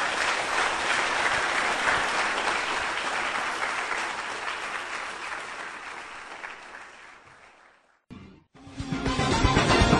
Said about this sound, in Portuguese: Vamos aplaudir o nosso Senhor.